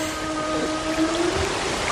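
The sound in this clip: A whale call played in an animal-sound guessing quiz: a low, drawn-out tonal moan with a slight upward bend midway, over steady noise.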